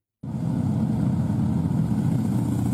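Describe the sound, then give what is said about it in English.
Harley-Davidson motorcycles riding through Milwaukee for The Ride Home celebration make a deep, steady engine rumble that starts abruptly and holds loud and even throughout. “If you're anywhere around Milwaukee beginning September 3rd, you probably won't have to wonder what's making that unmistakable sound. Harley-Davidson's new The Ride Home celebration is bringing riders from across the country”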